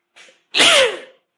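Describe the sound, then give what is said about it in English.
A single sneeze: a faint short intake of breath, then one loud, explosive burst that fades quickly into silence. “I had a little sneeze in there.”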